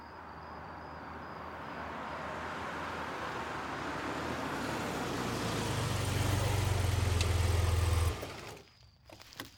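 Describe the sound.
Engine of a prisoner transport vehicle running: a steady low rumble that grows stronger, then cuts off abruptly near the end, leaving near quiet with a faint click.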